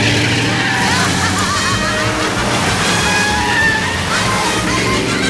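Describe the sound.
A car engine roars steadily in a racing video game, a loud, dense and continuous rush of motor and road noise with no breaks across the whole stretch.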